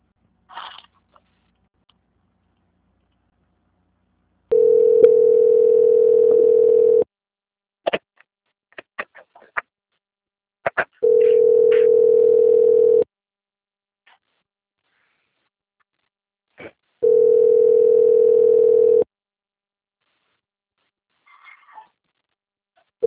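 A telephone line tone plays while a call is being transferred: three long, steady, mid-pitched tones of about two seconds each, separated by silent gaps with a few short clicks.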